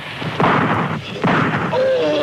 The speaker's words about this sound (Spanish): Los certeros disparos despacharon a dos negros.